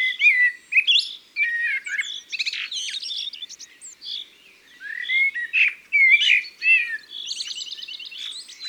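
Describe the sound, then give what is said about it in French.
Birds sing in a lively mixed chorus said to include a common redstart, chaffinch, blackbird, magpie and blue tit. Many high chirps, trills and whistled phrases follow in quick succession, with short pauses and no voices. “Nous avons entendu le chant du rouge-queue à front blanc, les cris d'un pinson des arbres, le chant du merle noir,”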